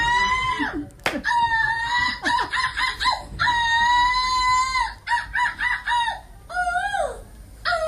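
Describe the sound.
Squawks of a seagull imitated by a woman's voice, a silver-medal performance at the European Seagull Squawking Championship in Belgium: many loud, shrill, harmonic calls in quick bursts with short gaps between them.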